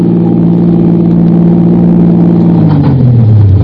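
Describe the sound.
A car engine drones steadily and loudly while driving on a highway at night, its low hum dropping in pitch toward the end.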